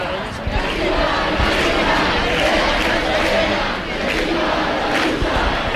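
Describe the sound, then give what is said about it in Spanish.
Crowd at a protest camp for decent housing in Madrid's Puerta del Sol, a loud, continuous roar of shouting voices that dips briefly about two thirds of the way through before surging back. “Pues este es el ambiente, así suena a esta hora la Puerta del Sol.”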